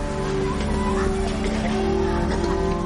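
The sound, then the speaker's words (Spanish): A bus pulling away along a street at dusk in the film Joker, its engine a steady low droning rumble with a layered harmonic hum, loud and unbroken from start to finish. “Al atardecer, el autobús se pone en marcha en una calle.”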